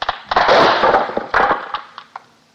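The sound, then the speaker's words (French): A plate falls and breaks with a loud crash and a burst of shattering. A second impact follows, then a few scattered clinks as pieces settle, with no voices. “Qui a cassé cette assiette?”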